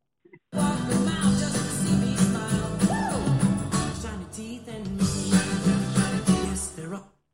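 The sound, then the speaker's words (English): Lively cartoon theme music playing loudly, busy layered instruments with sweeping pitch slides in the middle, starting suddenly and cutting off at the end. “Okay, it sounds like this is coming from Fairly Odd Parents.”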